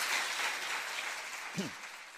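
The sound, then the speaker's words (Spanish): Audience applause welcoming a parade float group, a dense, steady crackle of clapping that fills the whole stretch at an even level. “Paco, Conchita y todos los demás, bienvenidos y el aplauso para ellos, por favor”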